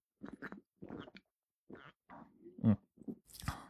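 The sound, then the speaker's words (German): Sipping and swallowing mate produces a few short, faint, wet mouth sounds and gulps separated by silence. “Noch mal einen Schluck Mate gerade.”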